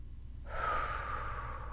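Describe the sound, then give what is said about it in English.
A single deep breath is drawn in. It is faint, soft and airy, starts after a short pause, and is sustained to the end over low background noise. “Okay, let's take a deep breath. Ready, go.”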